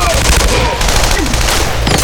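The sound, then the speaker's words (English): M16 rifle gunfire during a fight with advancing uniformed soldiers in a tunnel: dense, continuous, loud automatic bursts with overlapping crackling shots and no pause for the whole stretch. “She raised her M16 at the advancing brown-uniformed KGB.”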